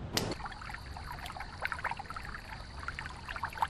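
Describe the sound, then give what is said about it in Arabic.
Water pouring into a small basin: a brief splashy burst at the start, then steady, bubbly trickling to the end. “جيت عشان املى الحوض ميه.”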